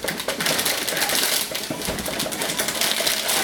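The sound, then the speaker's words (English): Packaging crinkles and rustles as an Intel Core processor is unwrapped, a dense, continuous crackle of small sharp noises at steady loudness throughout. “Now the first stage is to install the processor onto the motherboard, which means we'll unwrap that and then we'll unwrap them.”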